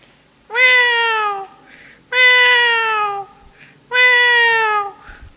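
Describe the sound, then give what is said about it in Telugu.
A cat meows three times in a row. Each meow is a long, clear, slightly falling cry with short quiet gaps between them. “అక్కడ ఒక పిల్లి ఇలా అరుస్తోంది.”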